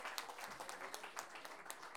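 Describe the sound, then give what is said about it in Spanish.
Faint audience applause at a payadores folk-poetry tournament, given after a raffle sells out. Many hands patter in quick, irregular claps at a soft, even level throughout. “Oye, un aplauso para todos porque hemos podido vender todos los números de la rifa.”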